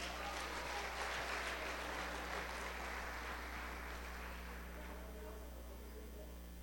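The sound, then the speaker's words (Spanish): An audience applauds during a Sunday morning church service, a faint, even clatter of many hands over a low electrical hum, slowly thinning and fading toward the end. “Denle un aplauso a Cristo.”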